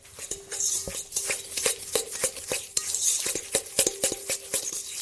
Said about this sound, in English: And now we just are going to mix everything up. I'm just going to... Personally, I like using a fork for this one.